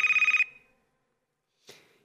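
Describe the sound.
Telephone ringing for an incoming caller: one loud, fast electronic trilling ring burst, then silence, then a short burst of noise near the end.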